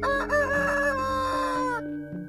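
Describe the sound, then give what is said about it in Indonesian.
A rooster crows at dusk in a residential neighbourhood: one long, loud, strongly harmonic cock-a-doodle-doo that wavers through several connected phrases, heard alone, before cutting off near the end. “meh saben surup pitik-pitik jago padha kluruk.”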